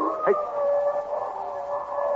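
A wolf howls in heavy, frozen snow: one long, steady, fairly even-pitched howl that carries through the whole clip at moderate loudness, with no talking.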